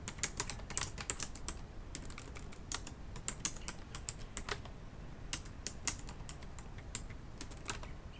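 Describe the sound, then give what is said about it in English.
Fingers type on a computer keyboard, soft irregular key clicks with a few louder taps, in bursts with brief pauses. “Oh, wow, I can't type.”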